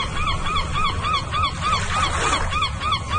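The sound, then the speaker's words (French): Seagull cries: many short, nasal calls repeat in a quick, regular rhythm over a steady background hiss, with no voices. “La mouette est un palmipède qui vit en poésie. Entre culture et confiture, comme Paul Verlaine, vous aurez entendu son cri.”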